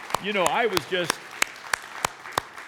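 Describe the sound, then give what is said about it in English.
Audience applause at a women's gathering, sparse and fairly faint, with distinct individual claps ringing out at a steady pace after a voice speaks at the start. “ladies, give yourself a round of applause. Would you just do that? And guys, do the same thing,”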